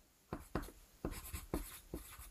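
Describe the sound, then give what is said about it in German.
A pen scratches on paper as something is written down by hand: five faint, separate strokes with short gaps between them, quiet and without any talking. “die schreibe ich direkt mit auf”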